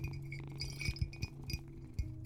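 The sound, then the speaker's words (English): Several sharp glass clinks from a glass water bottle, bright, separate taps spread unevenly across the moment over a low steady hum. “It's kind of a nice water bottle though. But why does it have to be from glass?”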